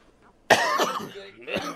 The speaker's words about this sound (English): Just coughing on the mic.